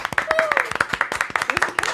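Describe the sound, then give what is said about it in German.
Applause and cheering greet a newly introduced office assistant: dense, lively clapping throughout, with voices calling out over it. “Applaus für Ramona! Yay!”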